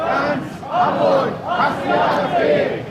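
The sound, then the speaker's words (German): A protest crowd demonstrating against the AfD chants loudly in rhythmic swells, many voices rising and falling together in a steady cadence throughout. “Laut Polizei haben hier 1.500 Menschen demonstriert.”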